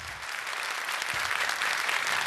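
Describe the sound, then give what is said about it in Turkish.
Studio audience applause for a televised music program fills the whole stretch as a dense, steady wash of many hands clapping, fairly loud and even throughout, with no voices on top. “Çok teşekkür ediyoruz efendim kıymetli alkışlarınız için.”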